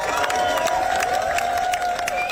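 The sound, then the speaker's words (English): Crowd applause and cheering as a singer's funeral procession passes through the Mumbles in South Wales: steady, dense clapping throughout, with a sustained held tone running beneath it. “The crowd applauded as the procession went past.”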